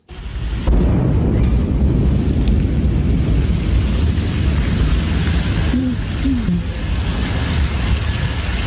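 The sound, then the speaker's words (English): A deep, loud roaring rumble from the Blue Origin New Glenn rocket explosion during testing, captured by a witness; it bursts in sharply after a brief onset and sustains as a heavy, rolling low roar to the end. “In a post on X, Blue Origin said the New Glenn rocket experienced an anomaly during testing. Blue Origin and Amazon founder Jeff Bezos said that it was too early to determine the cause of the explosion and described it as a very rough day.”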